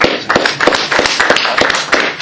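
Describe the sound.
A round of applause for a speaker at a stop-the-war event: loud, dense clapping from a small crowd, with sharp individual claps running continuously throughout.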